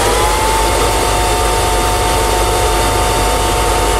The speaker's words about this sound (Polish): Nie, teraz drugi samochód elektryczny, już na serio teraz.